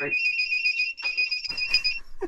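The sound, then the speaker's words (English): A phone alarm goes off with a steady, high electronic tone in two long pulses separated by a brief gap. Voices and noise come in over the final part. “That's the phone.”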